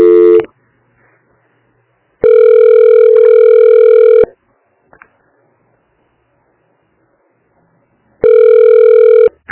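A telephone tone plays while a call is transferred: a brief tone at the start, then two long, steady, mid-pitched ringing tones of about two seconds each, separated by several seconds of near silence, loud and without voices.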